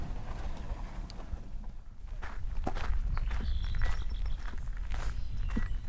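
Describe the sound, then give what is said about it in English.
Footsteps of someone walking up to wetlands from a parking lot. Many steady steps patter along with scuffing noise, and the sound grows slightly louder partway through. “I'm walking up to the wetlands”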